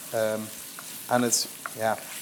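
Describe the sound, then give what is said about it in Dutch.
Onion fries in oil and butter in a pan that still holds browned residue from meat cooked earlier. A soft, steady sizzle runs under three short bursts of voice. “dat laat altijd een bepaald aanbaksel achter in de pan. Door nu wat olie, boter en de ui toe te voegen, ben ik dat aanbaksel”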